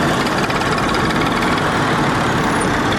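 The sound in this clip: An old motorcycle engine runs while carrying two riders, a loud, steady rumbling drone with a constant, unchanging pace throughout.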